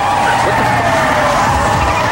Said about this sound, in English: FBI and customs vehicles suddenly close in on them from all sides